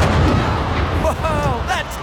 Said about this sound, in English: A human shot out of a cannon 75 feet into the air with nothing but pure pizzazz.